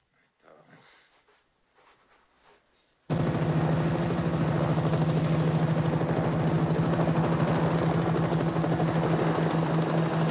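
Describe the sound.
A helicopter flies over a snowy road. After a few quiet seconds its loud rotor chop and engine drone burst in and continue evenly and steadily to the end.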